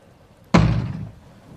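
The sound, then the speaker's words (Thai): A single heavy thud as someone kicks the door of a lodging house from outside in the dark. The impact lands sharply and alone, then fades into a short rumbling decay. “มีคนถีบประตูบ้านพักจากด้านนอก”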